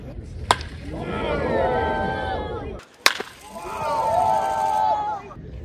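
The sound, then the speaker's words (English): Two sharp, loud cracks of a bat hitting baseballs hard at an MLB game, each followed by a swelling crowd roar. “That was the sound of a number of baseballs being hit very hard and very loud by Showtime”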